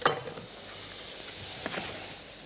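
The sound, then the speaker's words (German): Apples and onions sizzle while frying together in a pan, a steady hiss that flares loudly at the start and then settles, with a small pop partway through and no talk. “Also die Äpfel kommen jetzt zur Zwiebel dazu, ja?”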